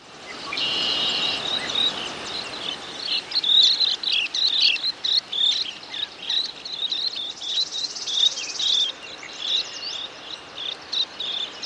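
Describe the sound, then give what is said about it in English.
White-crowned sparrow song: several high, whistled and trilled phrases repeated over a steady, shimmering insect drone, with the phrases rising and dropping in loudness. “White-crowned sparrow.”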